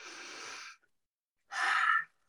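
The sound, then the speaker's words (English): Deep breath drawn in during a guided relaxation breathing exercise, heard as two soft, airy breath sounds separated by a short silence, the second louder and slightly shorter, with no voices. “Take a big deep breath in”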